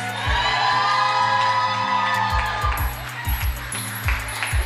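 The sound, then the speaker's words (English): Cheering and whoops from an audience welcoming a university president at a Black Diamond Weekend event in a room, over music with a steady, thumping bass beat throughout. “Friends and family, ladies and gentlemen, everyone in the room, let's give it up for President Blair Durham.”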